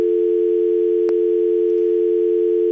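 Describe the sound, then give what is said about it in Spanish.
Steady phone line tone after a radio call-in dropped: one continuous, unchanging pitch that holds alone for the whole span, broken only by a faint click near the middle. “Se me hace que se nos cortó. A lo mejor sí, si, se, cayó la llamada.”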